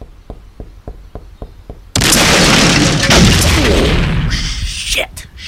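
A gunshot in a drama: a row of faint, evenly spaced clicks gives way to a sudden, very loud blast. A long, roaring tail follows and slowly thins out.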